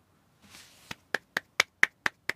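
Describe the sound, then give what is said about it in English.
A single person claps their hands seven times, with sharp, crisp, evenly spaced strikes that land about a quarter second apart. A soft rustle comes just before the first clap. “if you don't know, that's the sound of me clapping”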